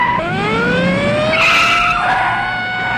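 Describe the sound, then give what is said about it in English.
Tires of a police squad car squeal as it pulls out into traffic and brakes to a stop, a loud, sustained skid with shifting high-pitched tones and a brief car-engine rush. “The squad car pulls out into traffic and cuts in front of Bond, who stops.”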